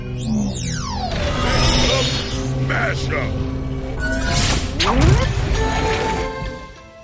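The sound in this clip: Stump Smash's smashing attack in the Skylanders video game: crashing, thudding effects with sweeping tones and a heavy crash near the end, with people talking throughout.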